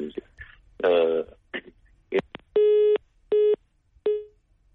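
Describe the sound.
A telephone busy tone sounds after a dropped call-in phone line: three even, mid-pitched beeps with short gaps, the last one cut short, following a few seconds of muffled voice-like sounds.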